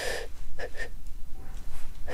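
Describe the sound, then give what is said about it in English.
Short, quick inhaled breaths top off already full lungs after a deep breath during a breathing exercise, a few brief airy sips with small gaps between them, the last one near the end. “Now, instead of breathing out, you take little breaths just to top off your breathing at the very end.”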